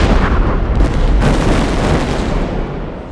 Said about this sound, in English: The blast and concussion that picked her up and sent both her and Thompson forward was, for a moment, her reality.